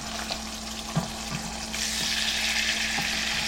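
Tilapia fillets frying in a pan: a steady sizzle with a few soft taps and clinks, then the sizzle turns louder and brighter once a fillet is flipped and stays high to the end.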